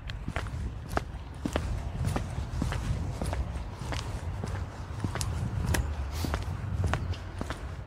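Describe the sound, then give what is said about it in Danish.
Footsteps walk around a residential neighbourhood in a steady, even rhythm of many faint steps over a low background rumble. “nu tror jeg faktisk, jeg vil gå en tur rundt i kvarteret for at hilse på folk.”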